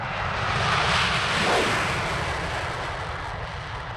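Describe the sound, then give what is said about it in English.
French Rafale fighter jets taking off from an air base in Corsica: a loud, broad jet-engine roar that swells to a peak and then holds as a steady rushing blast. “French Rafale jets take off from a base in Corsica headed for Libyan airspace.”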